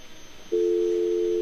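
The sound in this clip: A telephone tone sounds after a phone caller's line drops: a single steady mid-pitched tone begins abruptly after faint hiss and holds unbroken to the end.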